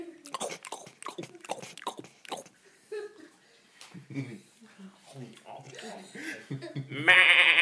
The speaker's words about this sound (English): And the goat's gonna clop up to you and go, meh.